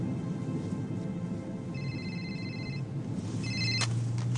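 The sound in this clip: A telephone rings twice, a long electronic trill and then a shorter burst, over a steady low hum with no voices.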